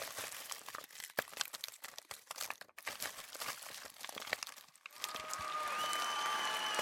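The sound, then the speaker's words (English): Crinkling of a small hard-candy wrapper being unwrapped: dense, irregular crackles and snaps for about five seconds, then a steadier, smoother noisy wash to the end. “I'm too busy trying to unwrap this little piece of hard candy.”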